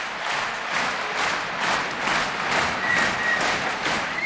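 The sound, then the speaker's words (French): Concert audience applauding a young Russian pianist called back for another encore at an outdoor 2024 concert in a château park. Dense, steady clapping swells in gentle waves and keeps going throughout. “Et le jeune pianiste russe revient sur scène acclamé pour un nouveau rappel et un nouveau cadeau.”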